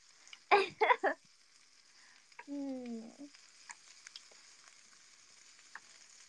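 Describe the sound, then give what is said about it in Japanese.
Gas stove burner being lit: three sharp ignition clicks in quick succession, followed by a brief tonal squeak and then quiet. “コンロ点火。”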